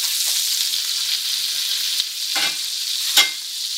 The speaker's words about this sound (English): So the butter's going in.